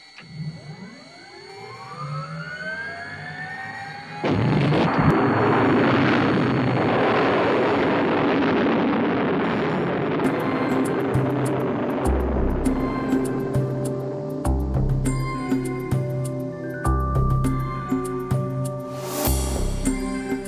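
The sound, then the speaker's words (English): Jet aircraft taking off, its engines spooling up with a rising whine before breaking into a loud, steady roar that holds to the end. “Clear for takeoff, Charlie? Check. Okay, give him the light.”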